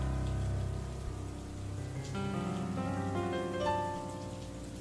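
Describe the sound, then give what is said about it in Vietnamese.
Steady rain falls in a dense, even hiss that holds for the whole stretch, with a faint tonal hum beneath and no distinct thunderclap. “Bên ngoài chỉ có tiếng mưa, thỉnh thoảng có tiếng sấm đì đùng.”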